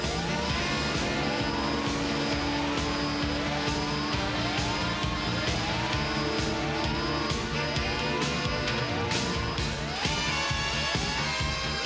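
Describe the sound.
A submersible craft launching in an animated adventure: a loud, steady mechanical drone laced with many evenly repeating rising sweeps, holding a constant level throughout.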